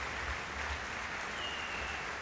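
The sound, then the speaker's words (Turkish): Concert audience applause after a symphony orchestra performance in which the conductor received flowers. It is a faint, diffuse and steady wash of clapping with no distinct individual claps. “Alkışlar devam ediyor.”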